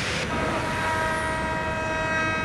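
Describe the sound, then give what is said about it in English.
Metro trains run at the République station of the Paris Metro, making a steady, loud mechanical rumble. High whining tones sit over the rumble throughout. “In the Paris Metro at the République station, all the metros have been free for 3 days this week, and the buses”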